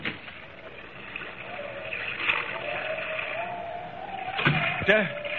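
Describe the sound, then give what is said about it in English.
Waves breaking over a ship's deck in rough weather at night: a continuous rushing, surging wash of water that swells louder toward the end, heard under people talking. “Pretty rough weather tonight. Waves are breaking clear over the decks.”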